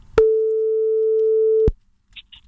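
A telephone busy signal on a call: one steady, pure mid-pitched tone sounds at an even level for about a second and a half and then cuts off, followed by a few faint short blips.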